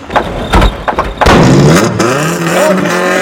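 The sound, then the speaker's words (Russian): A convertible car pushed by police officers, then driven away noisily: a few dull thuds come first, then a loud engine roars up and revs as the car pulls off. “Полицейские толкают машину.”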